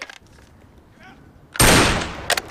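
A rifle fires on a military firing range: one loud, sharp shot with a rushing tail, followed by a few shorter cracks near the end, after quiet low background noise.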